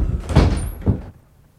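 Knocking on a door: two dull, heavy thumps about half a second apart, with a faint tail after the second blow and no voices.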